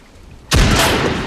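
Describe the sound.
A scoped rifle shot aimed through a gap in smashed window wreckage strikes a German helmet. A single sudden, loud crack breaks a low rumble and leaves a heavy, sustained roar behind it.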